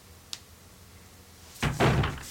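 A door opening in the Resident Evil video game: a faint click, then after a pause a loud, rumbling thud-and-swing noise that lasts under a second.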